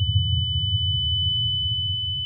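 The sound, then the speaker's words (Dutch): A simulated tinnitus beep: a loud, sharp, high-pitched steady whine that holds unbroken for the whole clip over a low, rumbling hum. “En wat gebeurt er dan in uw hoofd? Een keiharde scherpe piep. Dus de vertrouwde piep wordt veel harder en scherper en indringender.”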